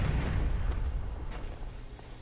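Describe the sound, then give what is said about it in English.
Grenade explosions in a video game rumble low and heavy, a deep booming blast whose roar holds briefly and then fades over about two seconds. “We have no guns, so we're throwing all of our grenades”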